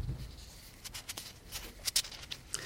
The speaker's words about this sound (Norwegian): jeg må bare bla litt for å se.